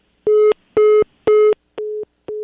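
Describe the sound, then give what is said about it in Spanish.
A telephone busy tone sounds after a call is cut off: five short, steady, mid-pitched beeps in an even on-off rhythm, the last two a little quieter. “se cortó la llamada con Mariana Gómez del Campo”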